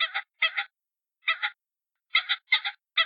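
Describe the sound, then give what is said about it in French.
A voice imitates the clucking of a hen pheasant. Short paired clucks come in several groups with uneven silent gaps between them. No talk is heard. “Orlandi se mit à imiter le gloussement de la poule faisane.”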